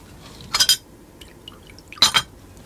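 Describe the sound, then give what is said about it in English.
Coffee poured from a silver coffee pot into a cup comes as two short, splashy liquid bursts with a bright glassy edge, separated by a quiet stretch with faint ticks. “as I half-filled a cup from the silver coffee pot.”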